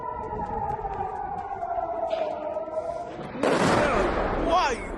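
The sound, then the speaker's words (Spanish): Sirens and blasts from an Iranian missile barrage with cluster warheads striking in Tel Aviv, Israel: a sustained wailing siren tone, then a sudden loud, noisy burst of explosions that roars on almost to the end. “Acabas de escuchar el tipo de armas que utiliza el régimen iraní. Se trata de misiles que llevan ojivas de racimo diseñadas para abrirse antes de caer y dispersar proyectiles”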